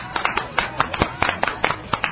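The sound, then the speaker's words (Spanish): Applause effect on a radio show: a few hands clap quickly and a bit unevenly in a short, dry burst of sharp, distinct claps with no voices. “Ay, para ellos tres va un sonoro aplauso.”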